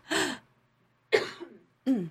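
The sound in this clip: Throat clearing and coughing from a person with something stuck in their throat: three short, rough bursts separated by pauses, the middle one trailing into a raspy grunt and the last a brief forceful hack.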